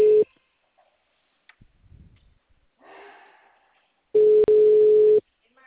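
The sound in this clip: A telephone ringing tone heard while placing a call: a steady mid-pitched tone, a clipped fragment at the start and then one long burst of about a second near the end, with faint scattered noises between.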